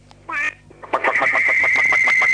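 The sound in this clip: Duck quacking: a short nasal call, then a long run of many rapid, evenly spaced quacks at steady loudness.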